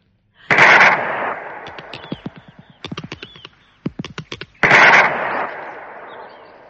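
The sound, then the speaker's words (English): Gunshots fired at a creature in a garden: two loud, sharp blasts with long ringing tails, separated by a rapid string of smaller sharp cracks. “Put your fingers in your ears. Yes. I'm going to shoot the top off it.”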